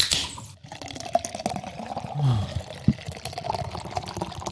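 Liquid pours into a glass for a toast in an autumn-decorated hearing-acoustics studio. A continuous splashing trickle runs throughout, with a couple of brief louder spikes, and no voices over it.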